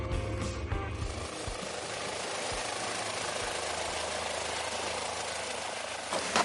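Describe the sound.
A rented helicopter flying to a remote mountain site on the heights above Courchevel makes a steady low, thumping engine drone under a broad, continuous roar that holds an even level throughout.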